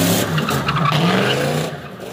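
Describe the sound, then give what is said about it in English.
Cars skidding around a parking lot at a car show meetup, a dense, continuous roar of screeching tires and engine noise that stays loud throughout, with no voices. “sometimes skid around the parking lot in chaotic and dangerous fashion, as shown in this video obtained by Las Cruces police.”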